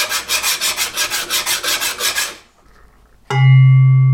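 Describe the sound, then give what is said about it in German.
A round file rasps material from the middle of a tuning bar in a quick, even run of many loud back-and-forth strokes. After a short pause, one struck tone rings on with a low, steady pitch. “Dass ich das mit großer Wahrscheinlichkeit hier an einer Feile machen kann, an einer Rundfeile, mit der ich aus der Mitte der Platte etwas abnehme, etwas herausarbeite.”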